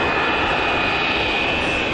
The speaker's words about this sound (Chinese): 你看，是那架航班啊？哎呀呀，来了来了来了来了来了来了来了！哎呀，飞机窗口上黄毛蓝眼睛全都看清楚了。